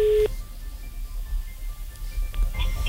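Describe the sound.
A telephone line tone sounds while a call is being placed: a short, steady, mid-pitched beep at the very start, then only faint line hiss and soft clicks.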